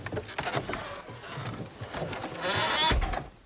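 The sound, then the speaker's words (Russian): A bay horse pulls a hay cart along a village road. Rough, shuffling clatter and creaking continue throughout with a few sharper knocks, growing somewhat louder toward the end, with no voices. “По дороге рядом с деревней едет телега с сеном. На ней сидит женщина с двумя мальчиками лет 5. Телегу тащит гнедая лошадь, которую под уздцы ведет мужчина в кепке.”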